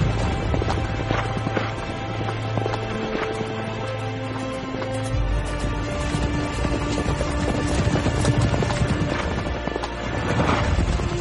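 Horses' hooves clip-clop as a team pulls a horse-drawn chariot. The hoofbeats are rhythmic and continuous, sitting within a dense, loud wash of other sound throughout.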